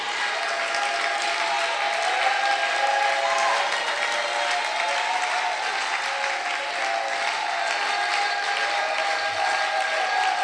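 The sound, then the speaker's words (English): Church audience clapping and shouting during worship, a dense, loud, sustained wash of applause and crowd noise lasting throughout without a break. “the sisters are clapping more than the God bless you.”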